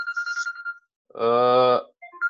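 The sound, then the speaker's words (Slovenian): A phone ringtone chirps in a quick run of bright, pulsing tones, breaks off into silence, then sounds again with a longer buzzy tone and a few short beeps. “nekaj mi zdaj telefon zvoni, v redu”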